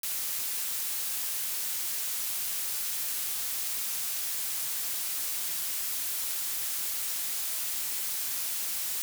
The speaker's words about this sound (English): here's pink noise out of polarity at the two speakers